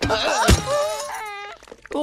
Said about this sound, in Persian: دورکیس، این آخرین شیشه بیکنمون بود.